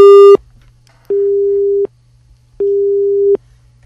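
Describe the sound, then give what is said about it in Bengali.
Telephone busy signal after a call line has dropped: three loud, steady, mid-pitched beeps with regular gaps. The first beep is cut short, and a faint low hum runs underneath. “সম্ভবত লাইনটি কেটে গেছে।”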